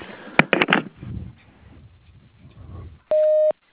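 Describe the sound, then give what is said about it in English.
An answering machine sounds its message tone, a single steady electronic beep of about half a second. It comes after a stretch of faint, low rustling and a few brief clicks. “if you'll leave a message at the sound of the tone”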